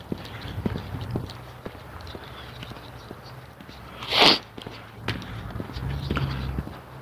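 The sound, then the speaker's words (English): Footsteps of a person walking make a steady series of soft thuds, broken by a brief rushing burst partway through before the steps continue. “I'm at the place where I stop talking and keep walking”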